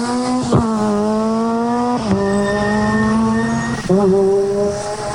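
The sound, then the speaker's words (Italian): A 600 rally car accelerates hard from the start area through four gears. Its loud, buzzing engine note drops sharply at three distinct gear changes and keeps pulling between them. “Avete sentito questa 600 che in poche centinaia di metri ha messo quattro marce, la dice lunga sulla prestazione che può scaturire.”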